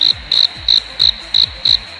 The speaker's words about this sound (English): I mean, crickets.